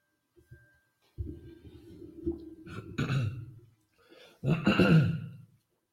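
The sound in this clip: Throat clearing, heard as a few low, rough bursts mixed with breathy noise, the loudest one coming near the end, with no talk.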